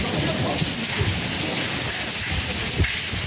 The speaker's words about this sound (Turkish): Fındık büyüklüğünde yağan dolu araçlara zarar verdi.